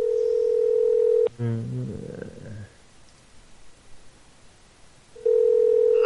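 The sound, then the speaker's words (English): A telephone line tone heard while calling back after the other party left the phone off the hook. A steady low tone plays, is cut off by a short burst of rapid dialing tones, then goes quiet before the steady tone returns. “It's not gone. This is engaged.”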